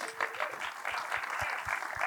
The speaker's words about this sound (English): And a round of applause for Mark O'Connor,